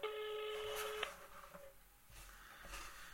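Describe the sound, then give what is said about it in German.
A phone call being dialed on speakerphone: a steady electronic tone lasting about a second, followed by faint clicks and rustling. The whole clip is quiet. “Anrufen. Machen wir mal einen Lautsprecher.”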